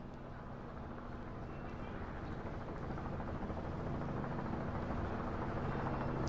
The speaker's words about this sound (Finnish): Katson taivaalle. Mediheli lentää matalalla kohti töölöä.